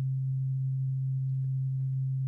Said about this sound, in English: So this is a binaural beat. It's kind of low, but can you hear that?